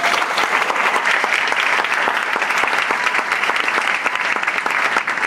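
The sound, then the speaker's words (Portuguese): A church audience applauds, a loud, steady roar of many people clapping together, with a few sharper individual claps standing out from the dense, unbroken sound. “Vamos aplaudir o Senhor.”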